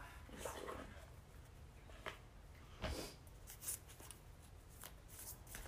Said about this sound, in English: Oh, we both have card decks here. We do have card decks. Let's pull a card, any card.